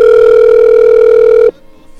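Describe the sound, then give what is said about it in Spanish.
A telephone tone sounds as a call comes through: one steady, loud electronic pitch held for about a second and a half, then cut off abruptly, leaving near silence. “entrando la llamada para con Rosendo”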